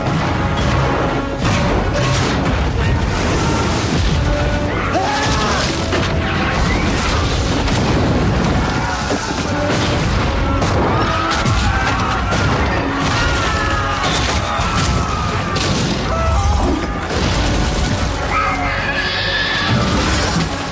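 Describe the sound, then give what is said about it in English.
Cannon fire bombarding buildings and a port, heard as a loud, unbroken din of deep booms and crashing impacts that continues for about twenty seconds. “Cannon fire bombards the buildings and the port.”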